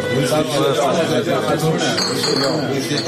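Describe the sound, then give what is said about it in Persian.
Small glasses clink together in a toast, light chinks ringing out under the overlapping voices of people talking. “این استکان‌ها که با لفظ سلامتی به هم می‌خورند سالانه جان صدها تن را در ایران می‌گیرند.”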